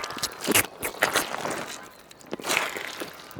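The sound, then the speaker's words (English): Footsteps crunch along a gravel track lined with moss and ferns on a bush walk in Tasmania. A few gritty, crackling steps come at an uneven pace, with scraping grit between the louder crunches. “Right now, I'm on a walk in the middle of Tasmania. The gravel track I'm walking along is lined with moss and ferns,”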